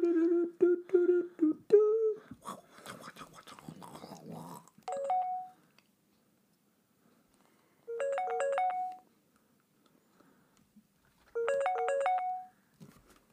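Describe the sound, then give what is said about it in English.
An Instagram video call ringtone plays on a phone in three separate bursts of a quick, stepped, bright chime pattern, with silent gaps between them. Talking and rustling come before the first burst. “It's actually just Instagram face caller.”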